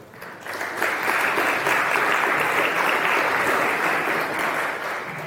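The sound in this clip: A conference audience applauds as speakers come on stage for a Kotlin tech talk. Steady, full clapping swells quickly and holds for several seconds before easing slightly.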